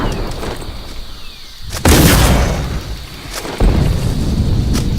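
Two heavy booms from a bullet bomb exploding in a video game, each a sudden loud blast followed by a rumbling decay, with the second coming a little under two seconds after the first.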